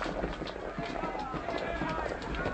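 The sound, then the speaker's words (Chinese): Many animals walk toward Noah's ark, their footfalls and hoof clops merging into a dense, steady shuffle that holds at an even level throughout. “我看得见了，是动物啊，从四面八方向方舟走来的”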